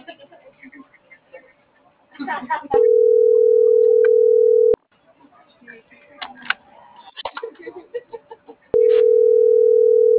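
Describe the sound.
A telephone dial tone sounds while a call is placed. The steady, loud, unbroken tone comes in two stretches, each cut off sharply, with faint muffled voices and clicks between them.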